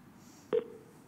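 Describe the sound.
A single short telephone keypad tone rings out during a call to a contact center, a clean beep lasting a fraction of a second against a faint, quiet background.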